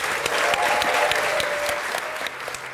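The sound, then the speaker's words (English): Applause from a live audience at the Science Gallery in Dublin at the end of an evening show: many hands clapping in a steady stream that thins slightly near the end. “Before we go, I want you to give a huge round of applause and thank you to our people here.”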